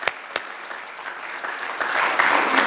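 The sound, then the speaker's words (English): A church audience applauds to welcome a visiting mother, a steady patter of many hands clapping that swells slightly louder toward the end. “Can we give her a hand this morning?”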